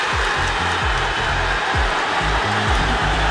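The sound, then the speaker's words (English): Football supporters at a fan event in Glasgow roar as they celebrate John McGinn's goal for Scotland against Haiti at the World Cup, a loud, continuous wash of cheering. “That's the sound of supporters at a fan event in Glasgow celebrating John McGinn's goal.”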